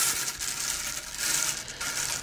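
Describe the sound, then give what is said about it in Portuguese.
Rune stones are shuffled by hand, giving a steady, continuous clattering rattle of small hard pieces knocking together, with no voices. “Deixa eu embaralhar aqui as minhas pedrinhas.”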